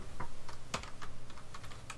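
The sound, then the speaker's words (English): Keys clatter as someone types a search query on a computer keyboard, a quick, fairly soft run of many uneven clicks with one sharper tap standing out. “Let me type it in Google here and we'll find out.”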